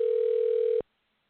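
Telephone dial tone as a call is placed, a loud, steady mid-pitched hum holding for under a second before cutting off abruptly into near silence.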